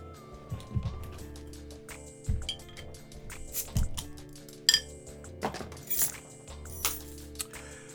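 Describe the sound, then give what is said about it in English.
A Heineken beer bottle is opened with a bottle opener on a keychain. Many light, irregular metallic and glass clinks are heard, quiet and alone, with one sharper click partway through. “I'm going to crack a Heineken real quick.”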